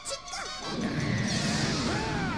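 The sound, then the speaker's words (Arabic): Thunder Punch lands in a Pokémon battle: a heavy crashing impact swells into a sustained roaring blast, with swishing, sweeping effects layered over it. “هذه لكمة الرعد، بسرعة تجنبيها تشيكوريتا.”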